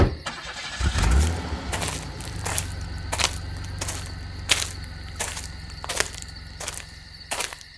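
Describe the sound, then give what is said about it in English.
A car engine starts and settles into a low, steady idle, with regular sharp ticking clicks sounding over the running motor. “Keep the motor running.”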